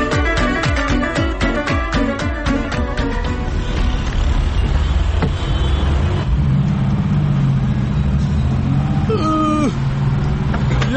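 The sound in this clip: A car engine runs with a rough, tractor-like chug, a loud, continuous, rumbling drone with an uneven rhythmic throb, heard on its own without talking.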